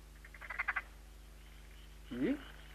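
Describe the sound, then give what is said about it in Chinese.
Frogs croak along a quiet, remote country path. A quick run of pulsed croaks is followed, after a pause, by one lower, throaty croak. Both are faint and stand alone. “咦？啊，奇怪啦！我好似听到啲田鸡嘅叫声噃。”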